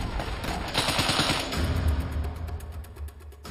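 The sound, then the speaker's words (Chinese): Rapid automatic fire from a Browning automatic rifle, a light machine gun used for suppressive fire during the Omaha Beach landing, rattles in fast bursts over a dense, continuous roar. “这款是勃朗宁自动步枪，也可以算是一种轻机枪，是个野兽。它的主要目的是提供压制火力，”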